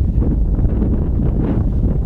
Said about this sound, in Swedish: Det är här ute så känns ju vinden.